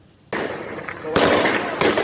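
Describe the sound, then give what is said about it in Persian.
Gunfire from firearms shot at protesters during fuel-price protests in Behbahan, Khuzestan: three sharp, loud bursts, each followed by a sustained, noisy rumble. “ویدئویی تازه منتشر شده از تیراندازی به معترضان با سلاح گرم در شهر بهبهان استان خوزستان.”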